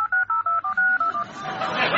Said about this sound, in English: They dialed the number of the missing phone, and a moment later...